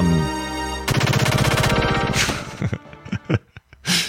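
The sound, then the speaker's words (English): Gunfire rings out inside a JRPG music track. A rapid machine-gun burst rattles over the music, then a few separate sharp shots break through as the track thins out. “There sounds like there's guns involved.”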